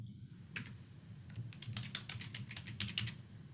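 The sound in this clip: Someone writing notes by typing on a computer keyboard: faint, quick key clicks in irregular bursts over a low background hum.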